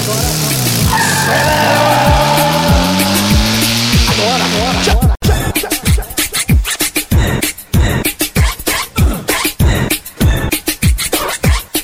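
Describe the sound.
A car engine revs up and down with squealing tires for about five seconds, then gives way to loud, steady music beats.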